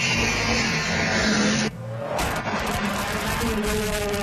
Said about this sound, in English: That is the snowmobile in somebody's garage.